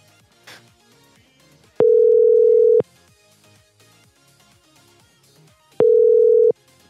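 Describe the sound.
Telephone tone after the other party hangs up: two steady, mid-pitched beeps, each about a second long and a few seconds apart, standing out loudly over a quieter busy background.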